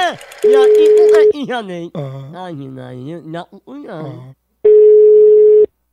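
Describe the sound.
Ringback tone of an outgoing telephone call: two long, steady, loud beeps at one pitch, separated by a stretch of one person talking.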